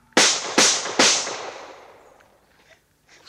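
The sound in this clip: Gunshots fired after a shouted warning: three sharp, loud cracks in quick succession, each trailing off in a short decaying tail, followed by near quiet with faint low noise.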